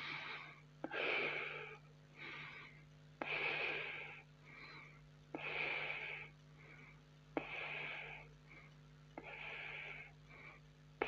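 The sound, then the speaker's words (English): Steady medium-depth breaths in a paced group breathing exercise: about five rhythmic breath cycles, each opening with a sharp airy onset followed by a longer, softer rush of air, evenly spaced and without talk. “Come on, guys, keep going. Deep. Not deep breath, not a short breath. It's somewhere in the middle.”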